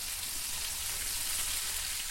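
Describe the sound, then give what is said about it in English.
Sizzling of homemade hamburgers frying, a steady, dense crackling hiss that holds evenly throughout with no voices. “Food writer Sybil Kapoor sizzles up her own homemade hamburgers”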